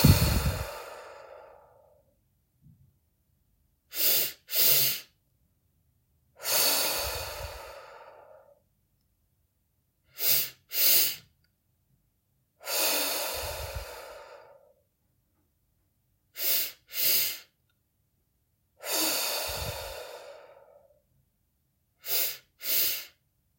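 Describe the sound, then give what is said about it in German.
Deep breathing during a relaxation exercise: four long, sighing exhalations, each followed by a pair of short, sharp inhalations, with silent pauses between. “Du kannst dir vorstellen, dass du all deinen Frust ausatmest. Atme ganz tief zweimal und aus.”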